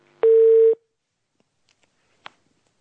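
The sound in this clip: A call-in phone line connects an incoming call with one steady, mid-pitched beep lasting about half a second, then near silence with a few faint ticks and one short click.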